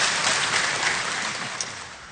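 Audience applause at a political party event, a broad, steady roar of many hands clapping that eases slightly toward the end.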